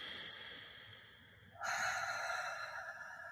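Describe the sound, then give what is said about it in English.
A deep breath taken during a relaxation breathing exercise, heard as a soft, airy exhale that swells after a quieter start and holds steady to the end, faint and with no talking. “deep breath. Just inhale through the nose and exhale through the mouth. I try to make my exhale longer than my inhale”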